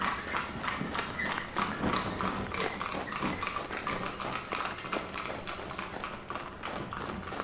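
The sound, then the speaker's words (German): Clip-clopping hooves of a horse pulling a tourist carriage, a steady, fast and dense run of hoofbeats that keeps going through the whole stretch at an even loudness. “Die Touristenkutsche voll leicht bekleideter Liechtensteinerinnen hat ihn erfasst.”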